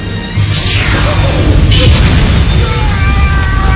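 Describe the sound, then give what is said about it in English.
A laser weapon fires in an Austin Powers film scene, a loud booming blast that swells into a sustained, roaring rumble and holds at full strength to the end. “Mr. President, allow me to demonstrate the awesome lethality of the Alan Parsons Project. Fire the laser!”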